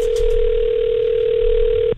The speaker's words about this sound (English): so let's give her a call and see how things are going